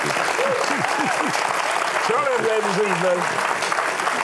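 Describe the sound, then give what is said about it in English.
Studio audience applause welcoming Charlie Daniels onto the set, a steady, even roar of clapping through the whole clip, with a voice speaking over it. “Would you welcome Charlie Daniels to Life Today?”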